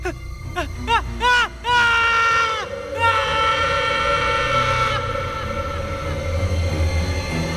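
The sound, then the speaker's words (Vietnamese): An agonised scream rings out in a large house: loud, high, piercing wails, first a few short cries that rise and fall in pitch, then one long sustained shriek. “Trong ngôi nhà lớn bỗng vang lên một tiếng hét thảm.”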